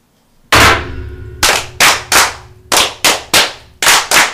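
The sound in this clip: Masonic lodge brethren perform their ritual fire as sharp claps struck together in unison: one loud opening crack, then many more crisp volleys in an uneven rhythm, each with a short ringing decay.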